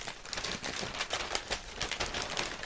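Crinkly rustling as a Discogs mailer marked fragile and signed-for, with stickers on it, is opened, a steady papery scratching with quick small crackles throughout and no talk.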